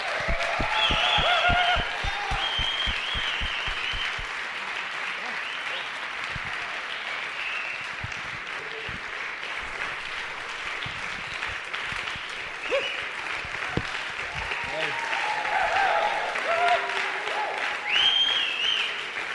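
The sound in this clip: An Edinburgh audience applauds warmly to welcome a speaker, starting as a dense burst of clapping that thins to scattered individual claps and then swells again, with some voices mixed in.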